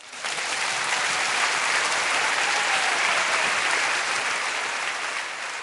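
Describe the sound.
A church audience applauds, a dense, even wash of clapping that swells in quickly, holds steady for about five seconds and thins slightly at the end, with no voices above it.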